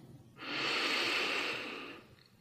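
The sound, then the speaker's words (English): A single deep inhalation during a guided meditation: a soft, airy hiss that swells and holds for about a second and a half, then tapers off, faint and alone without speech. “Let's begin with a deep breath in.”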